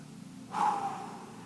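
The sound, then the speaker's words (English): A deep breath taken by a preacher during a sermon, a single breathy inhale that swells suddenly and then slowly fades, heard alone without talk. “Deep breath.”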